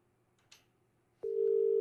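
Telephone tone after a caller's line disconnects: a click, then a loud, steady, unbroken tone that continues to the end.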